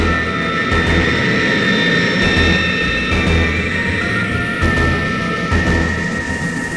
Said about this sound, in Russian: Самолет-носитель с подвешенной к нему особо мощной водородной бомбой набирает высоту.